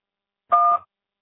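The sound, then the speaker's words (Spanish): A voicemail answering machine sounds a single short electronic beep before recording, a steady two-tone chirp lasting about a third of a second, alone against silence. “No puede contestar su llamada ahora. Después del tono, grabe su mensaje.”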